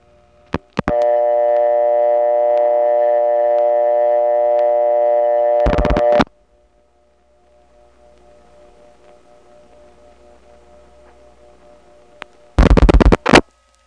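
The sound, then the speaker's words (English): Telephone line sounds from dialing into a crossbar 5 exchange office: a steady multi-tone hum holds for about five seconds and ends in a dense burst of clicks, then a quiet hissy line, then another short loud burst. “But now let's call a crossbar 5. We'll dial 3-5, which goes into the Woodland Hills crossbar 5 office.”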